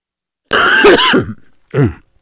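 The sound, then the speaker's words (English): A person with a cold gives two harsh, loud coughs, or throat clears: first a longer rasping burst, then a short, sharp one after a brief pause. “Still battling that cough and cold, but doing a whole lot better.”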